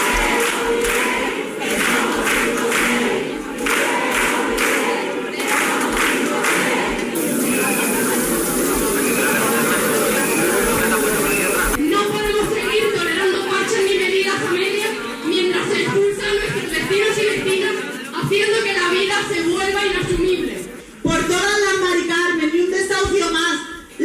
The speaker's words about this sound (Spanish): Y seguimos recorrido en Huelva, concentración contra el negocio de la vivienda a las puertas de la subdelegación del Gobierno con estos sonidos.